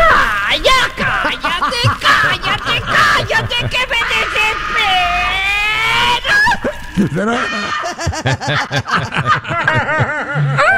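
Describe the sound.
A Mexican baby's loud, high vocal cries and squeals come in many short bursts, the pitch wavering up and down throughout.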